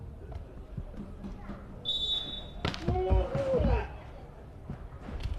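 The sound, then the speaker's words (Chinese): A referee's whistle sounds at a volleyball match between two Qingdao teams, calling a double-contact fault with one sharp, steady high tone. Ball thuds follow, and a commentator talks throughout. “裁判这时候呢哨声响了，也是吹罚了青岛市二队队员的连击。”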